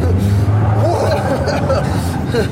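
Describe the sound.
A pickup truck's engine drones steadily as it is driven in a drift, a low, continuous rumble heard under people talking.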